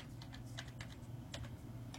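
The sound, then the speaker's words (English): Typing on a computer keyboard: a faint, quick run of many soft key clicks in an irregular rhythm, with no talking. “not smart enough to talk and type words at the same time.”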